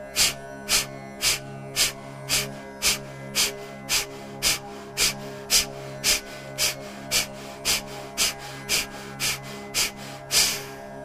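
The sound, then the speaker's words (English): Rapid breathing exercise with fast, forceful exhalations: a long, steady series of many short, breathy puffs at an even, quick rhythm, each one sharp and hissy, over a faint steady tonal background. “We will move to 5 rounds of 20 breaths at a faster rate of exhalation. Inhale. Begin.”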